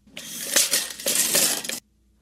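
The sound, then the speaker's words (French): A metal retractable tape measure snaps back into its case with a rattling, scraping metallic whir that lasts under two seconds, pulsing slightly as it runs, then cuts off abruptly into silence. “Un tape qui se rétracte.”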